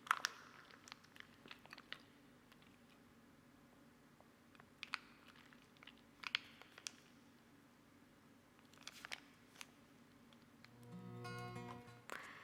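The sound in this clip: Konjac jelly being chewed: many faint, soft, wet squishes and smacks in an uneven rhythm over a quiet background, with a brief steadier sound near the end.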